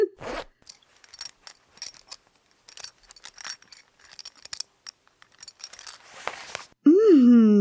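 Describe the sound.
A zipper comes undone. Scattered small clicks and fabric rustles lead into a short, rasping pull near the end, and then a voice begins speaking.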